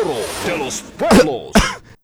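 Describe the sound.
Two short, harsh coughs burst out one after the other, loud and abrupt, following a stretch of voiced sound.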